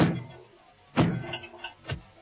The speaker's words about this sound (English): It doesn't open. Not like an ordinary door. It revolves. Look.